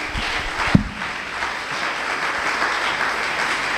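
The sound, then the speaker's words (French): A church audience applauds its pastor with steady, even clapping and a single sharp thump early on; the sound stays level throughout and no voices are heard. “Est-ce qu'on peut acclamer pour le pasteur?”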